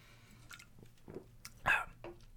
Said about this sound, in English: But take another swig of this Fiddlehead IPA I got going, which is delicious.